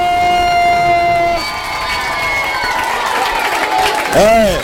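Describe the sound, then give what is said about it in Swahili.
Crowd cheering with high, sustained ululating cries for a teacher named at a gathering, a busy mix of voices and shouts, with a louder voice rising near the end. “Wapi vifijo na nderemo vya mwalimu Wala bin Wala?”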